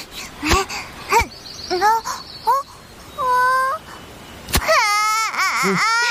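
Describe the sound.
A child cries and sobs in short wavering wails, then a longer held cry and a fast, trembling run of cries at the end, broken by a few sharp clicks.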